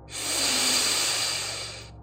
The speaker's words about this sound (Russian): Сделайте глубокий вдох.